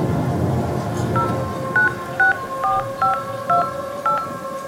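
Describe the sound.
Telephone keypad dialing tones as someone places a call: seven short, clear beeps at an uneven pace over a low background rumble, with no talking.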